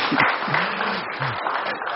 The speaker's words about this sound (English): Why don't we clap for Courtney?